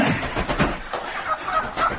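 A chicken clucking in short, rough bursts while held just before being killed, fairly faint against a noisy background.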